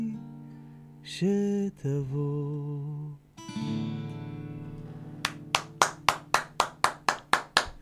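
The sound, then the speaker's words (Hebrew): One person claps hands in a steady series of sharp, evenly spaced claps, following a few sustained electronic tones. “אנחנו בתוכניות הבאות צריכים להביא קהל, זה לא עסק שרק אני מוחא כפיים, אני מרגיש ככה בודד. תשמע, אני חייב להגיד שזה אלה מחיאות הכפיים הכי נלהבות שאני זוכר מהשנה האחרונה.”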